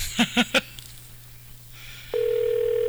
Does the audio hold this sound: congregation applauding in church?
no